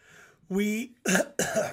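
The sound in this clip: A person coughs: two harsh, abrupt bursts in quick succession, following a brief throaty voiced sound.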